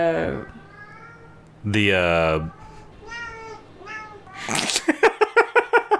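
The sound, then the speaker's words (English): A cat meows repeatedly, one long loud wailing meow standing out among shorter ones, while a person speaks at points. “all I can hear is the cat.”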